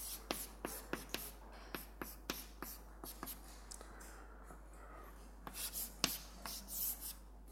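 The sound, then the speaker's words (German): Handwriting as an equation is written out during a physics lecture: a quick series of short, scratchy strokes at an uneven rhythm, fairly faint, over a low steady hum, with the strokes thinning and turning more smeared toward the end. “Ich schreibe es einfach mal hin.”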